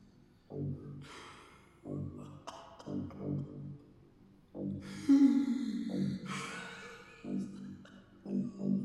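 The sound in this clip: A voice imitates soft sobbing and whimpering, producing many quiet, shaky bursts of breathy whimpers, catches and gasps in an irregular rhythm, some rising into brief strained cries before falling back.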